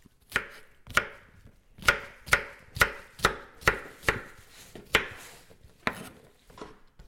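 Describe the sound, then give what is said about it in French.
A knife chops courgettes into small cubes. About a dozen sharp, fairly faint chops come in an uneven rhythm, with short pauses between some strokes and no talk. “Donc, on est en train d'éplucher les courgettes et de couper en petits cubes les courgettes.”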